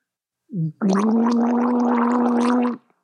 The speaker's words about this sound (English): G-A-R-G-L-E, means to take water and to put it into your back of your mouth. I will have to demonstrate this. It's easier to understand if you can hear it.